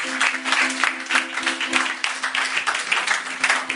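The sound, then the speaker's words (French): A church audience applauding, with dense, sustained clapping that runs unbroken through the whole stretch and a steady low tone held beneath it. “Est-ce que quelqu'un peut acclamer le Seigneur?”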